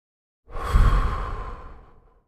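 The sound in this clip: A deep breath drawn during a guided relaxation exercise: one long, airy breath that swells quickly and then fades out over about two seconds, heard alone with no talk.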